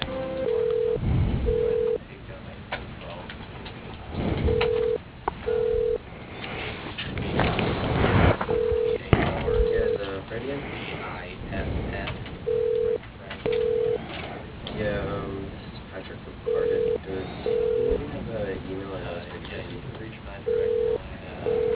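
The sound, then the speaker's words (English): A phone line rings during a call transfer to a company manager's extension: paired ringback tones repeat about every four seconds over a noisy, murmuring background. “You are being transferred to Wilson Berea, General Manager.”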